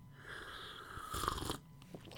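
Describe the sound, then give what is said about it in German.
Sipping very hot, Christmas-scented tea: a single faint, brief slurping suck lasting about half a second, alone in near quiet. “So, ich nehme jetzt mal einen Schluck, wartet mal ganz kurz, ja?”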